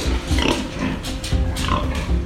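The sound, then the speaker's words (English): Pigs grunting and squealing on a smallish pig farm of about 150 pigs in coastal Fujian, China: a loud, dense, continuous chorus of overlapping squeals and grunts, with no talk. “So I went to a pig farm on the coastal province of Fujian, and I went to see one of a really typical kind of smallish pig farm.”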